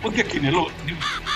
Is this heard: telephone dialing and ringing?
no